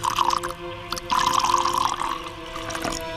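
A drink is poured into a glass in a few short bursts of splashing liquid, with brief gaps between the pours.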